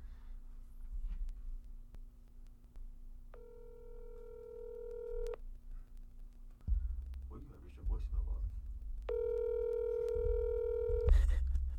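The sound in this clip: A phone rings out on an outgoing call: two long ringback tones, each lasting about two seconds, separated by a pause, while people talk quietly in between.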